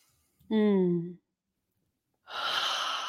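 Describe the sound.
Deep breath: a brief voiced sigh-like sound, a pause of about a second, then a long, airy, breathy rush of air.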